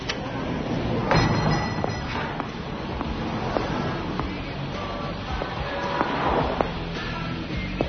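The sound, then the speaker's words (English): Dishes and a glass being rinsed of food while washing up: a continuous rush of running water, with scattered clinks and light knocks of glass and crockery throughout. “See, you have to rinse off all the food or it gets all over everything. Found this big little chunky thing on my glass.”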